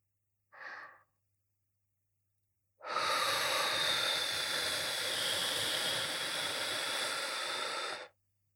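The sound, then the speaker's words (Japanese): Breath blown into the ear in an ASMR session: a short soft exhale first, then after a pause one long, steady, airy blow that hisses evenly for about five seconds before stopping abruptly. “じゃあ、また最後に耳に息を吹きかけるね。行くよ。”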